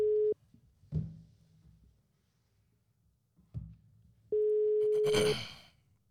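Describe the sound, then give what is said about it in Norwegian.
Telephone ringback while calling someone: two steady mid-pitched tones, a short one at the start and a longer one later, with faint rustles and soft thumps in the quiet gap between them and a noisy burst at the end. “Kan jeg ringe mormor? Ja, det, i høyeste grad. det kan du. Ja, men Da gjør jeg det. Og jeg håper veldig at hun svarer.”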